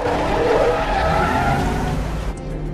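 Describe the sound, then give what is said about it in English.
Tires squeal as a black SUV is powered around a corner. A loud, sustained screech blends with engine roar and cuts off abruptly near the end. “Jack powers his black SUV around a corner.”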